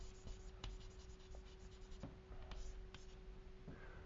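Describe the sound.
Diagram being drawn by hand: faint, dry scratching strokes, a series of short marks and a few longer scrapes, with the occasional light tap between them.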